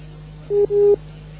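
Telephone line tones after a dropped call: two mid-pitched beeps in quick succession, the first short and the second longer, over a faint constant low hum, with no voices.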